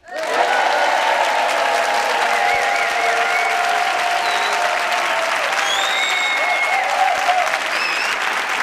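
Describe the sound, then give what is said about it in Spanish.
A large live audience at a comedy show applauds and cheers as a MAGA crowd. Dense, steady clapping holds loud from start to finish, with a few sharp whistles cutting through. “aquí en directo, con 357.452 personas, todas del movimiento MAGA, que suenan así.”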